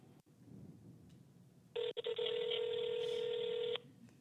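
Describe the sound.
Ringback tone of an outgoing telephone call placed from inside a church: one steady electronic ring lasting about two seconds, preceded by faint taps and low background murmur.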